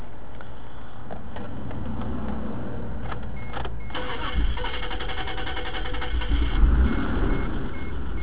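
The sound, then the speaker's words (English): An Isuzu Rodeo engine with bad valve noise starts up. A low, even rumble thickens about halfway through into a rougher, louder running sound that carries on to the end. “I'm about to start the engine.”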